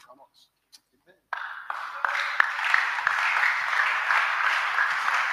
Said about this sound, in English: And the bad people, I don't know, they are joining the clapping.